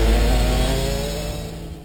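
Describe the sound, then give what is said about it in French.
A bioethanol-fuelled go-kart engine revs at full throttle on a kart track straight, giving a continuous loud buzzing drone with dense steady harmonics. Its level eases slightly over about two seconds, with no voices. “Prenez le volant des kartings fonctionnant au bioéthanol. À fond dans la ligne droite.”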